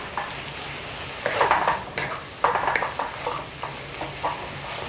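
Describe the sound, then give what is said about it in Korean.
Dried radish strips stir-fry in a pan with a little broth, making a steady soft sizzle broken by scraping strokes of a utensil against the pan, repeated at irregular intervals. “그래서 이 국물이 아주 자작자작하게 좀 이제 이 무말랭이에 스며들 때까지 좀 볶아주세요.”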